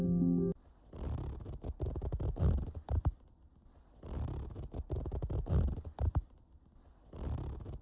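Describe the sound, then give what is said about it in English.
A zipper being zipped up, played as a guess-the-sound challenge: a brief tonal chime, then repeated rasping, ratcheting strokes in separate bursts, fairly loud and with no voices. “Ah, it was a zipper. Just zipping up”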